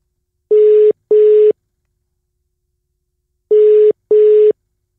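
A phone call's connecting tone sounds as an internet call reconnects: two pairs of short, steady, mid-pitched beeps, separated by a long silent gap, with nothing else heard.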